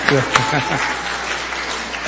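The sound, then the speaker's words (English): Lecture audience applauds itself after roughly four hours of listening, a sustained crackle of many hands clapping at a fairly loud, even level, with a brief voice audible at the start. “So please give yourself a round of applause.”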